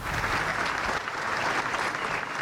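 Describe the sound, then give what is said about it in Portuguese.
Long applause from hundreds of people in the Alfândega courtyard at a Portugal Day flag-lowering ceremony, a steady, dense clapping that keeps going at a moderate level. “Foi recebido com um longo aplauso das centenas de pessoas que foram até ao pátio da Alfândega para o arriar da bandeira.”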